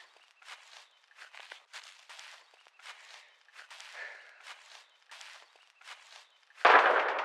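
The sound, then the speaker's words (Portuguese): A gunshot cracks out as one sudden loud blast near the end, after a run of light, faint footstep-like thumps. “Quem atirou?”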